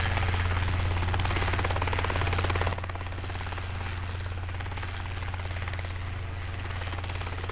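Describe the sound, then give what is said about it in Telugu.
Helicopter rotor thrumming as the pilot searches for a spot to land: a loud, steady pulsing chop with a deep engine drone, dropping slightly in level partway through and then holding even. “Pilot ఒక్కసారి ఉమాపతి వైపు చూసి helicopter దించడానికి అనువైన స్థలాన్ని వెతికాడు”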